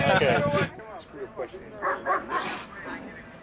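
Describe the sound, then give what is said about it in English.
A dog vocalizes: a drawn-out, whining yelp opens, followed by a few short yipping barks spaced over the remaining seconds. “That's my dog.”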